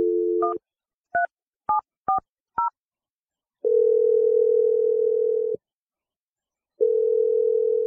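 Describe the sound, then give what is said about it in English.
Phone number being dialed on a telephone: a brief dial tone, then a quick run of about five keypad beeps at different pitches. Two long, steady ringing tones follow, separated by a silent gap. “let's dial Celia's phone number and let you make your awkward Tuesday phone call.”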